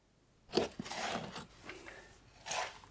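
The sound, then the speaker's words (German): Faint gritty scraping and crunching as prisoners mix cement in the Esterwegen concentration camp in 1934, a few rough strokes with short pauses between them. “Einige Häftlinge mischen Zement.”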